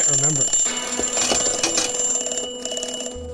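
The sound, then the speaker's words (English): An alarm goes off, a steady high electronic tone ringing over a busy mix of other sounds while people talk. “I was trying to remember to do something. I set an alarm.”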